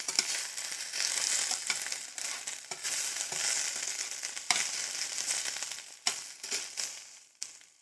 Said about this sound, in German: kommt 50 ml Wasser dazu und 10 ml Sojasauce. Und dann kann man das noch ein bisschen auf kleiner Hitze braten.